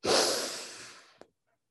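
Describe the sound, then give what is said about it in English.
A long, slow exhale of breath starts strong and fades gradually over about a second. A brief faint click follows. “Take a deep breath very quickly and hold it at the top. And then let it out slowly.”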